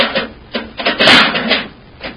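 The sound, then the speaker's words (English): A spaceship hatch is opened as a radio drama sound effect: several mechanical clunks and scrapes, with a longer grinding rasp in the middle, fairly loud. “I don't see any lights in the ship. Let's get the hatch open.”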